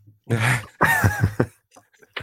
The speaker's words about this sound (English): He just cleared his throat.